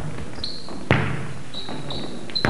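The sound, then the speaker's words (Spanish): A basketball bounces with a couple of sharp, distinct thuds, separated by a quiet stretch of about a second and a half. “Boto y boto mi pelota, la tiro y la encesto. Estoy jugando al”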